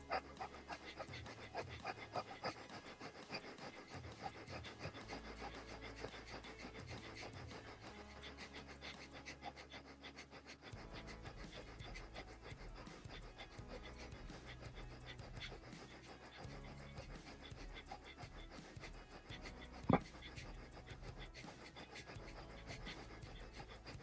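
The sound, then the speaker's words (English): Rapid, rhythmic yoga breath of fire: quick, forceful breaths pumped out at a steady pace, quiet and even throughout, with no talking. “Focus on the third eye and breathe for one minute in breath of fire.”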